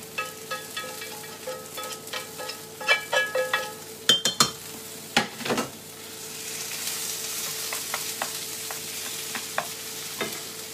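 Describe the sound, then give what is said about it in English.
Browned mince frying in a pot as it is stirred: a steady sizzling hiss runs throughout, broken in the middle by a cluster of sharp scraping clatters from the spoon against the pot. No voices. “Mince, all browned off, in the pot.”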